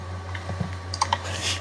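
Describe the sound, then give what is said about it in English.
Typing on a computer keyboard: a few soft, scattered key clicks over a steady low hum. “I can decipher it, just type it real quick. Okay, I'll type it to y'all.”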